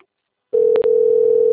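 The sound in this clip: A steady mid-pitched telephone ringing tone on a call, starting after about half a second of silence and holding to the end with one brief dip, loud and alone.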